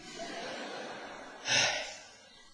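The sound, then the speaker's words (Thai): A monk catches his breath with one quick, breathy inhale after speaking rapidly. A short airy burst rises out of a faint steady hiss and then fades. No one speaks. “พอพูดเร็วเราก็หายใจไม่ทันเดี๋ยวขอหายใจก่อน”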